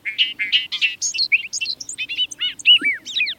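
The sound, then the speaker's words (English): A bobolink sings in a meadow in central Maine: a rapid, bubbly jangle of many high, tumbling notes that skip up and down in pitch, loud and clear with no voices. “Listen as a bobolink sings a rapid jangle of notes, like a meadowlark backed by a banjo.”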